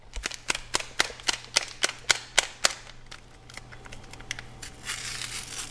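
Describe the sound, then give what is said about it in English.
A metal spoon clangs against the sides of an aluminum pot while stirring a dish on the stove: a quick, evenly spaced run of sharp, bright clanks, followed by quieter background noise. “as she's stirring, her spoon clanging loudly as it hits the sides of the aluminum pot,”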